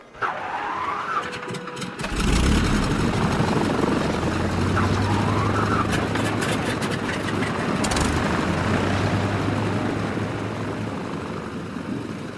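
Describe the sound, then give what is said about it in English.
An aircraft engine starting up on the tarmac: after a short quieter stretch, a loud, broad roar kicks in and holds steady, with a low droning hum running beneath it for most of the remaining time. “She puts on her headphones and eases the throttle forwards. The plane starts to roll.”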